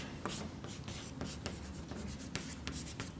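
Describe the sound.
An equation is written on a board in a quiet series of short, scratchy strokes, each a brief dry scrape with small pauses between them.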